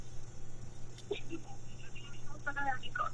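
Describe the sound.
Telephone tones on a radio call-in line, with short electronic beeps appearing near the end over a steady line hum.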